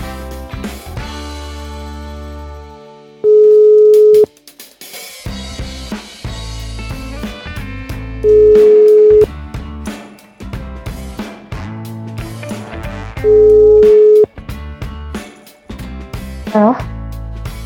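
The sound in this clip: A telephone rings out while a guest is being called, with three long, steady ringback tones about five seconds apart, and music and a voice in the gaps between them.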